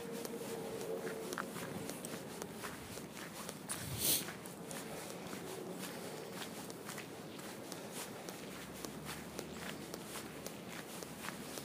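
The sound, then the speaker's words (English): Soft, squelching footsteps walk steadily through a muddy stretch of park path, with many even steps forming a continuous, moderately quiet shuffle. “Just walking through I think this is a truly muddy, muddy part.”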